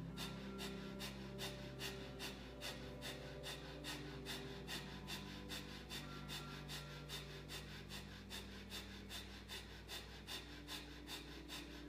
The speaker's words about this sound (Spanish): Vamos por nuestro segundo ciclo de Bastrika Pranayama. Comenzamos.